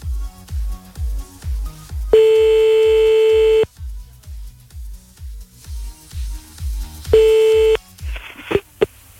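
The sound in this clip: Telephone call being placed: a long steady ring tone, then a shorter second ring, over a pulsing music beat, with a few sharp clicks at the end.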